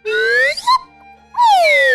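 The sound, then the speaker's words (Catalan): A magic whistle being blown in two long, bright, loud sliding toots separated by a short pause, the second one gliding downward in pitch. “Quan piti amb el meu xiulet màgic, de seguida hi serem.”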